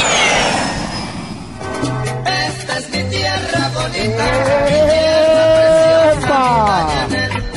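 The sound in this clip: An airplane sound effect opens with a jet-like whoosh and a falling whine, then gives way to loud, layered music with sustained tones.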